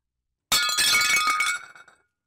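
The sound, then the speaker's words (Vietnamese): A teacup shatters when it is dropped: a sudden, loud, bright crash of breaking ceramic that lasts about a second. It trails off into fading tinkles of scattered fragments. “Chén trà trong tay Duyên vỡ tan tành khi nghe câu hỏi kinh dị của ông Tránh Tổng.”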